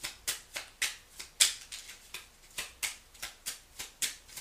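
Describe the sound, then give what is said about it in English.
Tarot cards are handled as a second card is drawn from the deck during a reading, giving many soft, rhythmic papery swishes in a steady pulse, faint and with no talk. “Okay, hold on. I'm going to take the second card.”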